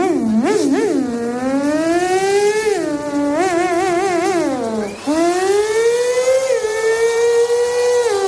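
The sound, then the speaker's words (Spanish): A woman imitates a Ferrari sports car engine with her voice: a loud, continuous revving hum that wavers and climbs, dips sharply near the end, then rises again, with no pauses for about eight seconds. “Voy a desvelar un gran secreto que tengo y es hacer un Ferrari. Así que necesito silencio.”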